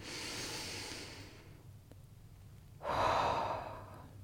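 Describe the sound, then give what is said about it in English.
A deep breath taken during a guided relaxation exercise: two long, soft, airy breath phases separated by a quiet pause, with no talking. “Okay, another breath.”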